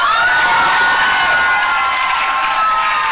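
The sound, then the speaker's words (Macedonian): A large crowd cheers in the courtyard of Dublin Castle, celebrating victory in the Irish abortion referendum. The roar is loud and unbroken, mixed with high-pitched shouts and whoops, and some clapping runs through it. “Големата толпа се собра во дворот на замокот Dublin Castle за да ја прослават победата на кампањата за промени, извикувајќи «Направивме историја», мавтајќи со транспаренти со зборот «Укинување».”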